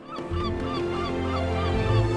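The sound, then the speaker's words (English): A seagull takes flight above rugged sea cliffs, giving a few harsh, honking calls over a steady low background rumble. “Then a seagull takes to the wing.”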